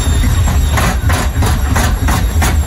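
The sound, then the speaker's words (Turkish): A faulty washing machine rumbles loudly with a heavy, continuous low drone. Rhythmic thumping surges repeat a few times per second throughout. “Senin de çamaşır makinen böyle sesler çıkarıyorsa vedalaşma zamanı geldi.”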